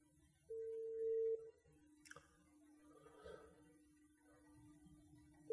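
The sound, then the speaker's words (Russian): Telephone ringback tone on an outgoing call: one faint steady tone lasting about a second, a long quiet gap with soft line noise, then the next tone just starting at the end. “Так, вызов пошел, по-моему.”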